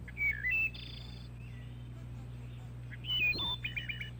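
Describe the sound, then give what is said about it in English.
Thrush song in two short flurries of fluty, whistled notes, one at the start and one near the end, faint over a steady low hum with quiet between. “The final section, Misterioso, contains only thrushes.”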